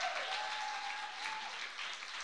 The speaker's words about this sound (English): Let's give them, Mina, Brian, let's give them a special hand clap.